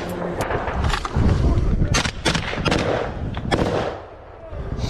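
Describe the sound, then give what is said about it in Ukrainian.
Gunfire and heavy blasts from a battle in which a Ukrainian tank fires on Russian army positions. Several sharp, loud bursts crack over a dense, rumbling background of continuous combat noise. “Бій зав'язався на фоні. Чуєте, стрілець.”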